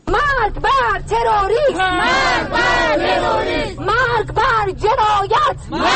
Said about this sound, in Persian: مرگ بر جنایت. این صدای اعتراض کنندگان است که در محکومیت به حمله انتحاری خونین جمعه